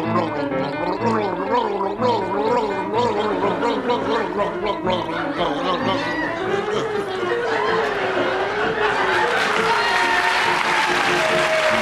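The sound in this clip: Gargling of the Flight of the Bumblebee, a wobbling, bubbly melody carried without pause through the whole stretch, with crowd applause and chatter swelling near the end.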